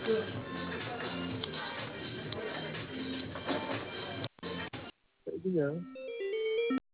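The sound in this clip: Telephone ringing over a narrow, tinny phone line while a caller is transferred to a cafe. A short burst of ringing tone comes near the end, after several brief breaks and a longer stretch of dense line sound.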